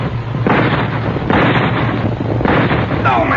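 Three rifle shots are fired during an armed standoff on a wilderness trail. Each lands as a loud, harsh blast with a long, noisy decay over a constant low rumble.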